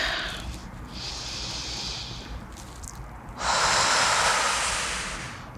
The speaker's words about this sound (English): Would you consider joining me in a deep breath right now?